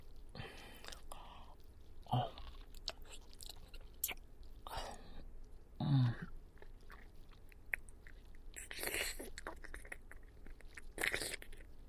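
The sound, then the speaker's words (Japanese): Someone chewing bites of food, with many irregular crunchy bursts of mastication at close, quiet level, separated by soft pauses and faint breathy whispering. “じゃあもう一口。”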